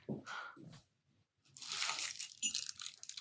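Crinkly, crunching handling of a package as it is pulled out. Soft rustles come in two spells with a brief quiet gap between them.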